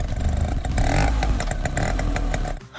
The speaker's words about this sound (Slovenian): Ja, to je zvok znamenite vešpice. In letos ta legendarni motorinčk praznuje 80 let.